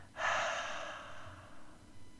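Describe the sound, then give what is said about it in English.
A slow, gentle exhale through the mouth comes as one soft, airy breath that starts abruptly and fades gradually over about two seconds, quiet and alone. “When you exhale, I want you to turn your hands over so that your palms are facing the ground and gently exhale through your mouth,”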